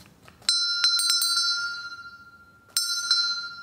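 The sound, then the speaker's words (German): A small brass-toned table bell from a World War I U-boat rings clear and high, struck a few times in quick succession, then after a pause struck again, each ring left to decay softly. “dass man dann die kleine Tischglocke auch klingen lassen kann. Wollen wir sie mal hören?”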